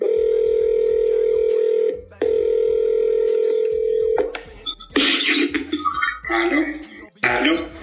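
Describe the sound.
Telephone dial tone heard while placing a call: a loud, steady hum that runs for about four seconds with one brief break, then gives way to irregular bursts that sound like a voice and throat noises.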